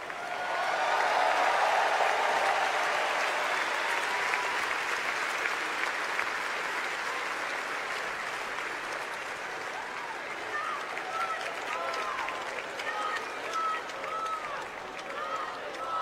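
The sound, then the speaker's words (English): Crowd chanting and cheering fill an arena at a political convention: a loud, steady roar of many voices with applause-like noise, and rhythmic chanted phrases rise out of it in the second half. “You can hear chants from the bowl, not one more, not one more.”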